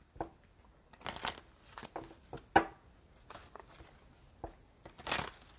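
Moonology Oracle cards being shuffled: soft, papery riffles and light slaps come in several short bursts, quiet and with no voices.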